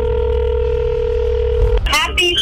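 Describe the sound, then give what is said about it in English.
A telephone line tone sounds during a radio call-in contest, a steady unbroken tone for nearly two seconds that stops abruptly as a voice answers over the line. “Now that's how you answer a phone call, yes.”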